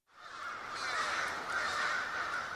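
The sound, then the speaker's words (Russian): Many crows cawing together around a snowy forest clearing, harsh overlapping calls blending into a loud, continuous chorus with no gaps and no voices. “Раздавались довольные крики ворон, рассевшихся вокруг поляны черным кольцом.”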